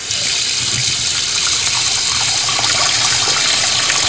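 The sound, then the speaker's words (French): Running tap water as mushrooms and courgettes are rinsed under it: a steady, continuous gushing hiss that holds an even loudness throughout, with no voices. “Puis nettoyez les champignons et les courgettes sous l'eau.”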